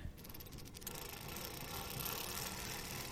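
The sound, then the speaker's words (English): A foot-pumped antique dental drill, treadle-driven through a long rod, spins with a quiet mechanical whir. Rapid rhythmic clicking at the start gives way to a steady, even rushing hum. “there's a foot pump that spins this mechanic round, which goes up this massive rod and then is attached to a drill”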